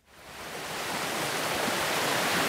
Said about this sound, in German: Durch das Heutal meandert die Wissinger Laber in großen Bögen. Sie fließt hier noch in ihrem ursprünglichen Bachbett.